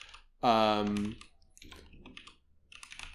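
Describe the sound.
Someone types on a computer keyboard with soft, irregular clicks at low level. A brief loud voiced tone comes first, and the scattered keystrokes run after it.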